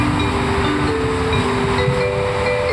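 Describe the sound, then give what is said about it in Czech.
Trains rumble in a main railway station hall, a loud, unbroken low roar with sustained humming and whining tones layered over it throughout. “Teď už jsme v budově hlavního nádraží, díváme se na strop, kde je světelná instalace.”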